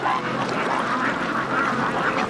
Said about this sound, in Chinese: 百干村这个鸭子养得太好了。